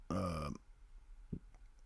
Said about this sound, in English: I see I just burped